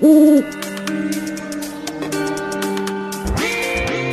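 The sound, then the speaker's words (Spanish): An owl hoots at night: one loud, wavering hoot opens, followed by fainter, steady sustained tones. “Sal al campo por las noches, si me quieres conocer. Soy señor de grandes ojos, cara seria y gran saber. ¿Quién soy? El búho.”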